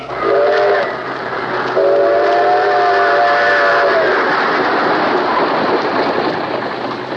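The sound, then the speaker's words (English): Train whistle sounding twice over a loud, steady rushing roar of trains heading toward a big-city station. The first blast is short and the second is longer, then the roar continues alone. “Drawn by the magnetic force of the fantastic metropolis, day and night, great trains rush toward the Hudson River”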